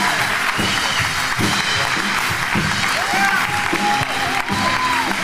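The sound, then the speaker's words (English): Applause and cheering from a church audience at C3 Powerhouse welcoming Pastor David McCracken to the stage: dense, steady clapping with scattered whoops running the whole way through. “So C3 Powerhouse, why don't you put your hands together and welcome Pastor David McCracken.”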